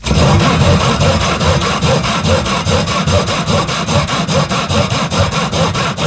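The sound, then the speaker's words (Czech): Rhythmic sawing: loud, rasping back-and-forth strokes repeat in a fast, even rhythm and run continuously throughout, with no voices. “Pokud jste to nepoznali, tak se jednalo o zvuk řezání.”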